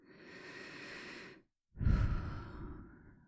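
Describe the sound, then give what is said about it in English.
Slow breathing during a relaxation exercise: a soft, airy in-breath, a brief silence, then a fuller exhale that starts strongly and gradually fades. “Focus your attention on your breath, allowing your out breath to just”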